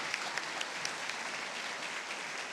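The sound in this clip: A church audience in Houston applauds to welcome a speaker at a Mother's Day service. The clapping is dense and steady, fairly soft, and holds evenly throughout with a few sharper claps poking out.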